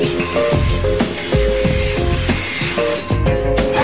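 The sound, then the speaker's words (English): Power tool cutting the bolts of a metal vent cover in an elevator shaft, with many short grinding bursts over a steady, whining metallic tone. “cuts the bolts on the vent cover between the fourth and fifth floors.”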